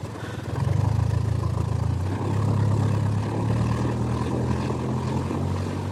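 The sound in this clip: A motorboat engine runs in a steady, loud drone, a low rumbling hum with a buzzing tone that shifts slightly in pitch but holds constant throughout, with no voices.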